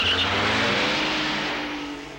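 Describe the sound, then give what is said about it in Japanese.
A car speeds off with a loud, broad engine roar that holds steady and then eases slightly over about two seconds. “なかなかいい車ね。いただいていくわよ。”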